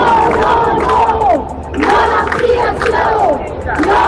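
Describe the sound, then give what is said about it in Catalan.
Thousands of protesters march against the expansion of El Prat airport, their loud massed shouting and chanting rising and falling in waves that continue throughout. “Milers de persones han sortit al carrer contra l'ampliació de l'aeroport del Prat.”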